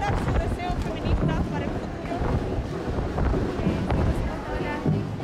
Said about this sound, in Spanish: En esta zona hay más caos y más ruido y más viento. Se hacen remolinos.